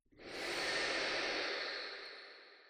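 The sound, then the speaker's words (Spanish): A long, steady breath drawn or pushed through one nostril during a guided breathing exercise, with a soft airy hiss that swells quickly, holds for about two seconds, then fades gently. “Llenate de aire hasta que no entre más. Y exhala aire por el mismo orificio todo el aire.”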